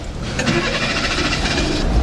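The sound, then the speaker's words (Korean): An LPG-fuelled car's engine starts up with a rough mechanical whir and rumble that holds fairly steady and loud for about two seconds. “LPG고요. 왜 LPG만 타잖아. 자, 시동 겁니다. 놀라지 마. 눈 감고 들어봐.”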